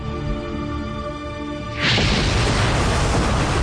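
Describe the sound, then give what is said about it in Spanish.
A helicopter explodes in a great fireball. A steady tonal drone is cut off about two seconds in by a sudden loud, broad blast that roars on to the end. “Al tiempo que Scafaro se desmorona, el helicóptero explota en una gran bola de fuego”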